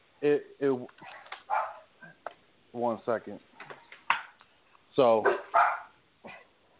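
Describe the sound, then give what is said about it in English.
A dog barks a few times while a man talks, the sharp yelps and barks mixed in among his speech. “I got my dog sitting here trying to tell me no, that's not the case.”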